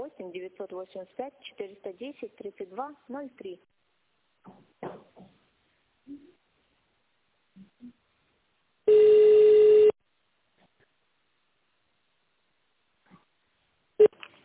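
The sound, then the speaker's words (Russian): A telephone voicemail beep, a single steady tone about one second long, sounds alone after a recorded voice message and is followed by near silence. “нажмите 0 и оставьте сообщение после сигнала”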